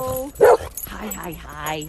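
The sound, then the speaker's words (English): A dog barks once, a short, loud, sharp sound near the start, followed by quieter canine sounds mixed with people talking. “whining and yelping and barking for dogs, like Navi and Daisy.”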